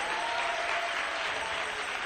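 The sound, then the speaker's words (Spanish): A church audience applauds during a worship service, a dense, even wash of clapping that holds steady at moderate loudness for about two seconds. “Dale un aplauso al Rey.”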